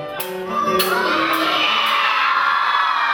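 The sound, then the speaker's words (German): Children in an opera audience shout loudly together. A sudden burst of crowd noise and whoops rises after half a second and then holds at a steady, loud, broad roar. “Da hat er gesagt, wir sollen alle ganz laut irgendwas rufen.”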